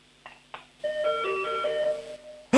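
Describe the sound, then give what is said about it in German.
Doorbell chime from a fun, novelty-style bell: two short tones, then a sustained melodic run of several clear, bright notes, fairly loud and ringing on its own. “Und jetzt noch die Türglocke.”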